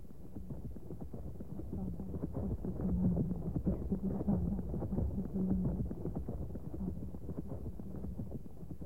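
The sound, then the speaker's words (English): Horse hooves clip-clop in a steady, even rhythm of many soft, muffled beats under a layer of wind noise. “Now get on that horse. And good luck to you.”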